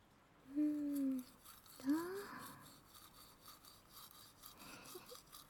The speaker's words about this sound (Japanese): まずは下の歯から磨いていくよ。右の奥歯から。